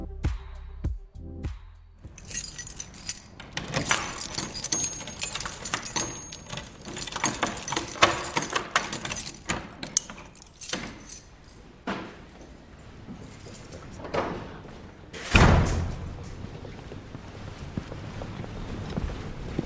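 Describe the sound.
Keys jangle and doors are unlocked and shut in a Paris cathedral on the Île de la Cité at the start of the morning rounds; irregular metallic clinks and rattles, with one heavier low thud near the end.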